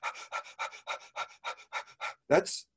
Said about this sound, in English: telling someone to breathe like this for 30 breaths quickly